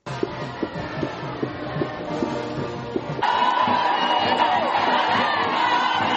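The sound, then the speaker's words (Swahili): A crowd in Maputo cheers and ululates to welcome Pope Francis, starting with a pulsing roar of voices, then swelling louder with high, wavering ululation and whoops over the second half. “kama unavyosikia hizo nderemo, ni furaha tupu inaoelezwa na wa Msumbiji waliojitokeza kumpokea Papa Francis jana usiku”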